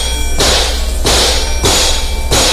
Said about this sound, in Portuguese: Ah, ele tá consertando o amortecedor, é assim, é?